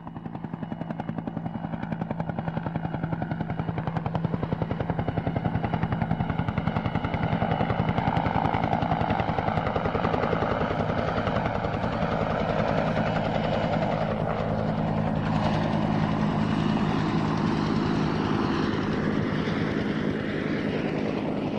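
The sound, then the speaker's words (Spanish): Low-flying helicopters crossing through clouds drone steadily throughout, a continuous rotor chop under a broad engine roar at even loudness, with no voices. “Suenan los helicópteros, vuelan bajo, cruzan las nubes.”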